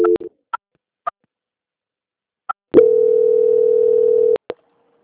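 Telephone line tones while a call is transferred: a short beep and a few brief blips, then a steady mid-pitched tone lasting over a second, ending with clicks.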